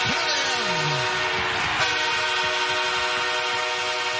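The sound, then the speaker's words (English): Train whistle blaring as a goal celebration in a hockey arena, a loud, sustained multi-tone horn chord that holds unbroken throughout over a steady roar beneath. “I'm about done with the train whistle, by the way.”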